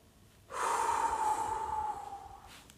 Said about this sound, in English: that was just my example of very loud breathing.